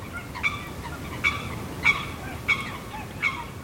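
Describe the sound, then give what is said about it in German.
Honking calls from a marsh at midnight where greylag geese, rails, crakes, a mute swan and a bittern were recorded, five harsh, goose-like calls spaced evenly over a steady background hiss. “Diese Geräusche wurden um Mitternacht aufgenommen. Man hört das kleine Sumpfhuhn, Graugänse, Wasserrallen, Blässrallen, einen Höckerschwan, Teichrallen und die Rohrdommel.”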